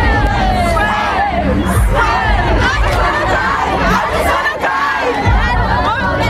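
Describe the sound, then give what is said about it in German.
A crowd of fans outside an arena before a concert in Munich sings and shouts together in a dense, continuous wall of voices, loud and steady throughout. “Radio Teddy Luisa ist für euch am Start, ist vor der Arena und ist auch dabei, wenn die Fans euren Radio Teddy Superhit singen.”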